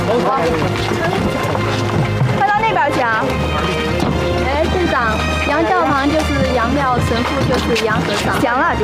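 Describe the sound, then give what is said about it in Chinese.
Hooves clip-clop as a horse pulls a cart over, a brisk, continuous run of hoof strikes heard under loud voices calling out. “来，把马车拉过来，把装备卸下来，快。”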